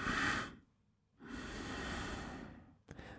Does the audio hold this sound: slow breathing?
yes